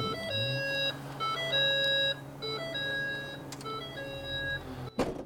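An electrically operated car tailgate opens to a warning signal: a repeating, tinkly melodic tune of bright tones over a steady low motor hum, followed by a short knock near the end.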